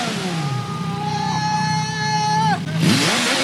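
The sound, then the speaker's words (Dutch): Motorcycles passing by in a city centre street: a whining engine tone holds steady, drops in pitch as one bike goes past, then another engine note sweeps upward. “af en toe komen nog wel, zoals je hoort, van die motoren voorbij die dan ook zeker van zich laten horen”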